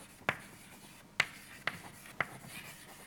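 Handwriting sounds as an equation is written out by hand, four sharp, scratchy strokes spaced unevenly over a quiet background, no talk.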